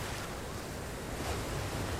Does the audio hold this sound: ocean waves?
yes

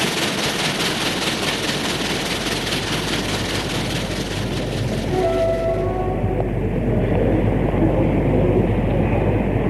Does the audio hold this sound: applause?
no

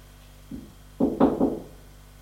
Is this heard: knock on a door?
yes

